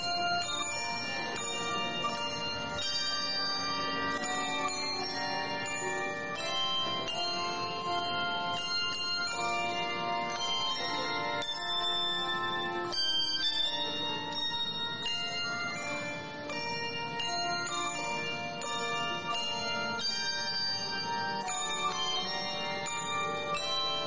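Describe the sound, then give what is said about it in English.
A bell ensemble plays the US national anthem at a baseball stadium before a game, with steady, ringing, sustained tones that carry on without a break throughout. “we honor America with the playing of our national anthem. Join us tonight. Please welcome the Bells of the Blue Ridge.”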